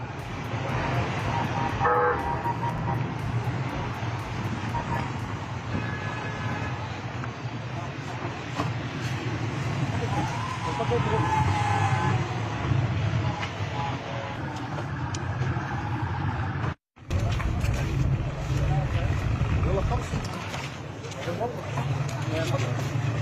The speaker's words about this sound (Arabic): وهذه مشاهد الموكب الذي أثار الجدل، إذ رصد مواطنون سيارات وزير الإدارة المحلية والبيئة محمد عنجراني خلال جولته في درعا.